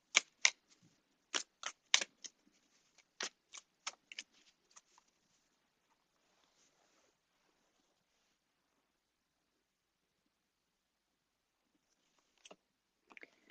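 Tarot cards being shuffled to draw one, heard as many crisp, quiet snaps and riffles in a quick run over the first few seconds, then near silence, and a few more faint card clicks at the end.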